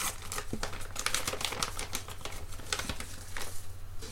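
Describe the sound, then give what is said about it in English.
Paper crinkling and rustling as an envelope is opened, a busy run of crisp crackles and small clicks at a moderate level with no talk. “Actually, shall we open up the envelope?”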